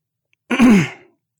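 A woman clears her throat once in a short, low, rasping burst with nothing else around it.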